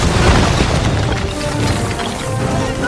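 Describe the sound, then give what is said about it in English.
An airstrike explosion from a film scene: a loud, sustained booming roar of dense, rumbling noise that fills the whole moment without letting up. “Request dynamic precision strike at our mark! You did not! Just call it an airstrike!”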